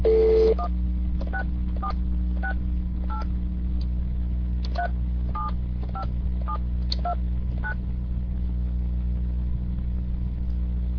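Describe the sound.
A telephone number is dialed on a touch-tone keypad: a long tone opens, then many short beeps follow in uneven groups over a steady low hum.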